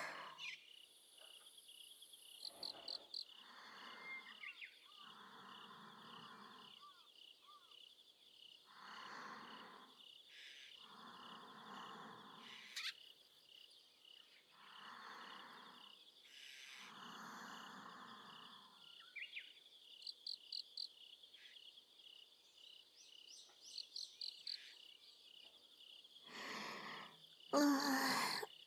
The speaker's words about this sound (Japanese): あー、でも虫の音が眠気を誘う。